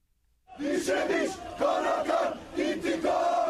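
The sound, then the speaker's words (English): Hundreds of aid flotilla activists cheer at a hero's welcome in Istanbul, Turkey: a loud, dense roar of shouting voices bursts in after half a second of near silence and holds steady, with surging peaks. “The sound of hundreds of activists involved in the aid flotilla raided by Israeli commandos got a hero's welcome in Turkey this morning.”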